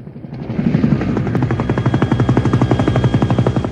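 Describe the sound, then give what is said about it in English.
A helicopter flies over the Statue of Liberty, its rotor blades beating in a loud, rapid, even chop that continues steadily throughout with a constant engine whine beneath. “The helicopter flies over the Statue of Liberty.”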